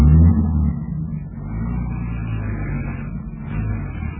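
A station wagon's engine drives off. It starts as a loud, low rumble, then settles into a steady, moderately loud drone.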